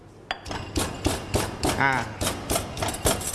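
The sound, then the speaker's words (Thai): A pestle pounds garlic into Thai curry paste in a mortar, striking in a steady run of many dull thuds about four times a second. “เครื่องแกงเราละเอียดได้ที่แล้วนะครับเดี๋ยวเราขออนุญาตใส่กระเทียมลงไปนะครับตำให้เป็นเนื้อเดียวกันนะครับ”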